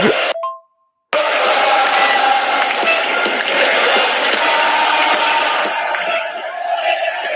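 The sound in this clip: A football crowd roars in the stadium stands during a championship match, a brief silence near the start and then a loud, sustained wall of massed voices that continues to the end.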